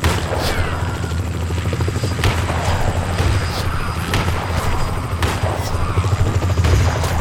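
Gunshots ring out as several sharp, loud bangs scattered over a steady, rumbling helicopter-like drone.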